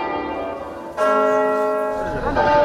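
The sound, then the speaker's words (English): Church bells tolling in mourning for the death of a British queen: deep, resonant strikes hum on in long decays, each note blending into the next at a slow, solemn pace. “bells tolled, flags lowered, and guns saluted, paying respects to the life and the legacy of Queen Elizabeth II.”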